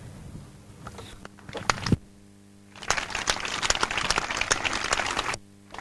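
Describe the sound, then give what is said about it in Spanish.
A crowd applauds from a prison courtyard during a support march for prisoners. A few brief claps are followed by several seconds of crackling, fairly faint applause, which then cuts off. “Sonido en directo, como podéis escuchar, con los aplausos, con el reconocimiento a las personas presas desde el patio.”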